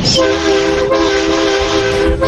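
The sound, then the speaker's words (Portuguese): A taxi's horn blares in one loud, steady, sustained tone that holds unbroken for the whole stretch, with a slight rough edge to its pitch. “Vai, buzina aí.”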